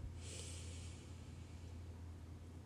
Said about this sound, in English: So let's breathe that in